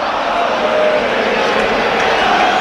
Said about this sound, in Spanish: El público rompe ya, cansado de todo.